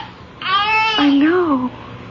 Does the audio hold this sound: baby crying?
yes